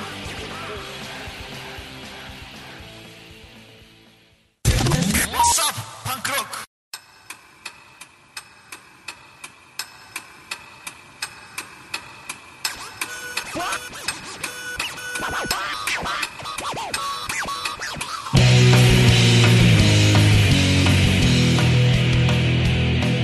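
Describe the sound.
Punk rock from a 1998 debut album starts with a fading passage, then a sudden loud burst. A sparse stretch of evenly spaced, clicking hits follows and builds steadily until the full band crashes in, loud and dense, near the end.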